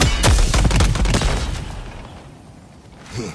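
A powerful weapon fires in a video game: a rapid run of heavy, booming blasts over the first second, then a rumbling tail that fades, with one last softer thump near the end.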